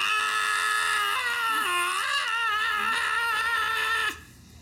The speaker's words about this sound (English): you hear a scream inside the wagon